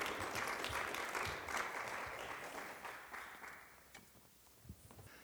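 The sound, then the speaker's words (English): Audience applause welcomes a speaker's parents onto the stage: dense, even clapping that fades gradually toward the end. “So would you help me put your hands together and welcome my mom and dad, Gary and Kathy.”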